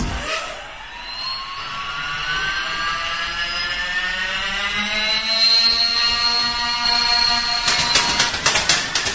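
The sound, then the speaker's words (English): A motorized paper airplane launching machine whirs steadily as its motor climbs in pitch, a buzzing hum that grows louder. It ends in a quick run of sharp, crackling bursts as the paper planes are fired out. “It's a paper airplane launching machine. It shoots up to 30 planes in 7 seconds.”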